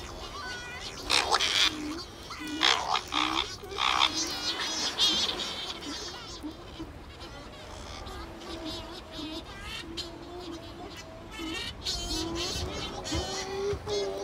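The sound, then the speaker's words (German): Shearwaters call in the night before flying back out to the open sea long before dawn. Many overlapping wailing, warbling cries run on steadily without a break. “Dann machen sich die Sturmtaucher startklar. Lange vor der Morgendämmerung fliegen sie wieder aufs offene Meer hinaus.”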